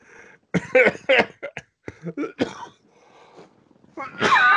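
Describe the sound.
A person sneezes: a loud, breathy burst at the very end, after several short, throaty vocal bursts.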